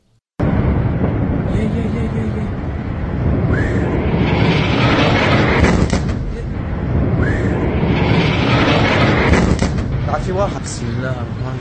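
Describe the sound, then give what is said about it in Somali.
Heavy missile blasts from warplanes in Lebanon erupt abruptly into a loud, sustained, rumbling roar that swells and ebbs, with brief voices audible in places. “iyadoona aad maqlayso dhawaaqo culus ee gantaalada diyaaradaha kayaanka Sahyuniga”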